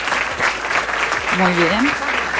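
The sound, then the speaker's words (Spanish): Applause from the audience of a live radio science show, steady even clapping throughout, with a voice calling out over it midway. “Un aplauso. Gracias. Para ella, si me ayudan.”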